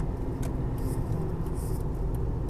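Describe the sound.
A car is driving, heard as a steady, low, broad rumble of engine and road noise. It stays at an even level throughout the short stretch, with faint higher hiss on top and no talk.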